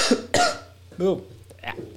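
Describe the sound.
A person coughs and clears their throat as something sticks in it: a few harsh, abrupt bursts, one with a strained, voiced edge, separated by brief quiet gaps.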